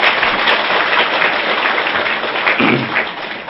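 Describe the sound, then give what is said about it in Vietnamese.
Audience applause at a talk held in a Buddhist practice hall, a dense, steady wash of many hands clapping, loud and continuous throughout without any talk. “Cho một tràng phá tay hoan nghênh.”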